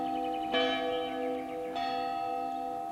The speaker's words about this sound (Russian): Вон звонок. Мне надо идти.